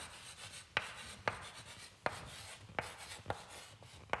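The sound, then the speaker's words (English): Chalk writing on a board: a dry scratchy drag punctuated by six sharp taps as the chalk strikes the surface, at a loose, uneven rhythm with no voices. “it sounds so authoritative to write with chalk like this.”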